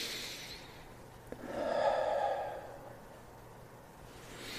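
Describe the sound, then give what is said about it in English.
One slow, soft breath is drawn in to inhale lavender oil applied to the skin. It swells and fades gently in an otherwise quiet stretch, with no talk. “And what I'll do is I'll put it on myself first. And I'll breathe it.”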